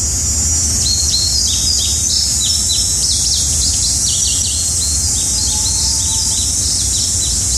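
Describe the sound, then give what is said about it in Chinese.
Birdsong fills a forest at waking time: many bright, quick chirps and short trills repeat throughout, over a steady high insect-like buzz and a low rumbling ambient drone. “感觉鸟语花香，大自然有一种可能是在森林里起床的感觉。”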